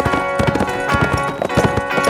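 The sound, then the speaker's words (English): Hooves clip-clop steadily as a rider turns a horse and rides away, with many rhythmic hoofbeats at an even pace throughout, over a faint steady tonal background. “he turned the horse and rode away, not once looking back.”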